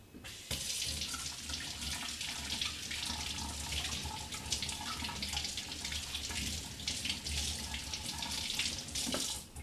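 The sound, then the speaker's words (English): Tap water runs steadily into a sink while eggs are washed under it, a continuous hissing rush that starts abruptly and holds at an even level for about nine seconds. “And we need 4 eggs here for 1 cake. So, okay, I'm gonna give it a wash.”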